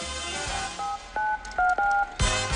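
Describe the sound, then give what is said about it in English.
Short electronic keypad tones from a cell phone as an executive dials a number in a stretch limo: four brief beeps in quick succession, set between stretches of low rumbling noise. “The executive dials a number on his cell phone.”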